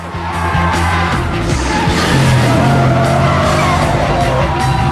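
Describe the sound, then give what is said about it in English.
A car brakes hard and skids after a race, its tires squealing loudly over steady engine noise for several seconds. “Maggie slams on the brakes.”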